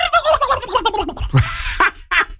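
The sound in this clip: A human voice imitates a turkey gobbling: a rapid, wavering warble that slides in pitch, followed by a few short, breathy bursts, loud and alone with no other talk.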